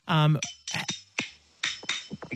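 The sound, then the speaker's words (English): Very old silver spoons played as percussion give sharp, bright clacks in an irregular rhythm, after a brief voiced tone at the start. “Oh, that's just some very old silver spoons that I usually play.”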